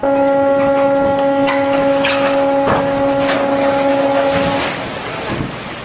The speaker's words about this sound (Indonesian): Suara apa itu, Kak? Itu suara kapal.